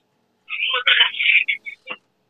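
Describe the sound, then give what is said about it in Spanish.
A telephone ringing with an incoming private call, a brief bright electronic ring in a few short bursts lasting under two seconds. “Están marcando en privado, vamos a ver quién es.”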